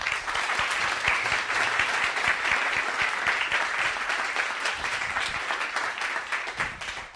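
Loud, sustained applause from a live audience welcoming a guest onto a stage, a dense, even wash of many hands clapping that holds steady for about seven seconds with no talk over it.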